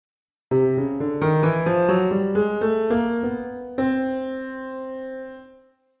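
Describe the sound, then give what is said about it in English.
A chromatic scale played note by note, starting on C: a run of evenly stepped notes climbing upward in pitch, each sounding cleanly, with the final note held and slowly fading to silence. “This is called the chromatic scale, and it sounds like this.”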